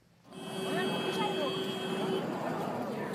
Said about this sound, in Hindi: आपको शायद हवाई जहाज के उड़ने की आवाज आ रही हो।